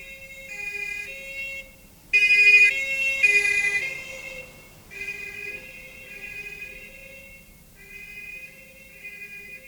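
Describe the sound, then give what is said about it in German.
A passing police car siren wails in a steady alternating tone, swelling suddenly louder for a few seconds and then easing back to a fainter level. “Was war das? Was meinen Sie? Die Sirene. Polizei, nehme ich an.”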